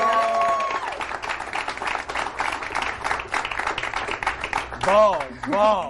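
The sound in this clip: An audience applauds a guest welcomed on a Persian-language entertainment show. A host speaks briefly, then a burst of dense, lively clapping takes over for several seconds, and speech returns over the last of it.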